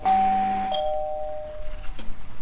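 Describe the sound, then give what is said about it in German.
A doorbell rings at a house door with a two-tone chime, a higher note followed by a lower one that slowly fades. Faint rustling and handling noises follow. “Ich klingel einfach mal.”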